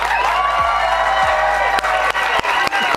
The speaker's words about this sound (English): Please welcome back into Studio C the head coach of your Cougar Hoopsters, Mark Pope.